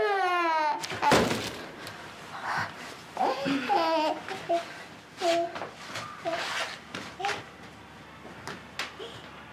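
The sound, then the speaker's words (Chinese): A baby cries in short, high wails that break into babbling, while an adult voice speaks soothingly over it. “哦，不哭了，不哭”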